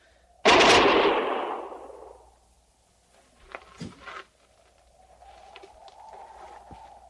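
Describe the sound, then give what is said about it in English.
Gunfire from soldiers shooting down from a canyon rim at a fleeing enemy: one loud, sharp blast with a long decaying tail, followed a couple of seconds later by a few fainter cracks. “We've stopped firing. We've turned him back.”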